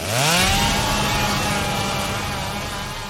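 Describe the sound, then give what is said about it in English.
A chainsaw tears a creature in half in a horror film. The engine revs up quickly in pitch, then holds a loud, steady, buzzing drone for about three seconds that fades only slightly, with no voices. “And that's where she starts sawing the goddamn thing in half. And again, this looks great with all the blood raining down. No. All the blood raining down, and the thing is just being torn in half by the chainsaw.”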